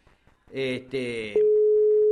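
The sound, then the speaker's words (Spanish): A telephone call rings out: a steady, low single ringback tone begins partway through and holds unbroken to the end. Two short, louder harmonic bursts come before it. “Lo estamos llamando. Vamos a ver si nos atiende.”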